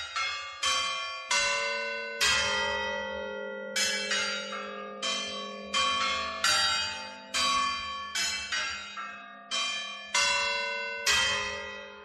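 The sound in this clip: Clock tower bells ringing quarter chimes: many loud, clear, resonant strikes in a steady melodic sequence, each ringing on with a long overlapping decay.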